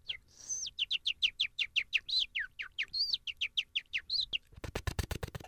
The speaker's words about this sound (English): And ever I wanted to disrupt the class at some point, I just do the bird sound.